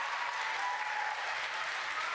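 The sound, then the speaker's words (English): Audience applause during a church service: a steady, dense wash of clapping hands, fairly loud and even throughout, with no voices standing out above it. “Can we give her a round of applause for announcements?”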